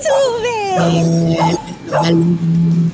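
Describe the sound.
Dogs whimper and whine in loud, drawn-out tonal cries that slide in pitch, broken by short yips and bursts of barking.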